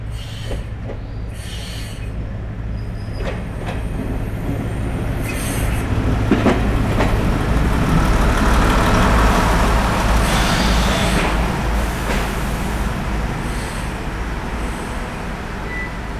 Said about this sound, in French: Si, a venido un tren herbicida.